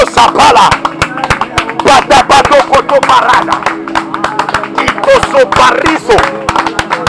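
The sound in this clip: A church audience claps during prayer, with sharp, rhythmic claps landing in quick succession beneath voices praying aloud.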